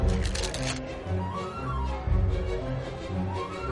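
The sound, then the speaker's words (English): A magician springs a deck of playing cards, producing a brief, rapid flutter of crisp card snaps near the start, followed by quieter background sound. “Another thing you can do is spring the cards, you know, just like this.”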